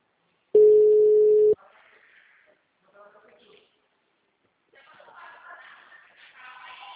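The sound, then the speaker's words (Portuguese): A single steady telephone ringback tone of about one second sounds while a call is being placed, followed by faint, muffled talk. “Ligando.”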